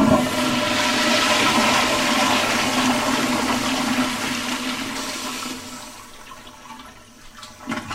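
A toilet flushes with a loud rushing gush of water that fades away over several seconds, followed by a few faint knocks at the end.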